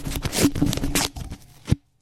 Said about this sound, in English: And you have the envelope, right? Here, just hand it to me and I'll tear it open.